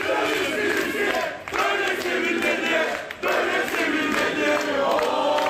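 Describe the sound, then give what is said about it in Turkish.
Fans chant and cheer at Istanbul Airport to send off the departing Fenerbahçe coach. The crowd sound is loud, sustained and rhythmic, with two brief dips in volume. “Bu sabah İstanbul Havalimanı'ndan Almanya'ya giden Tedesco'yu taraftarlar çiçekler ve tezahüratlarla uğurladı.”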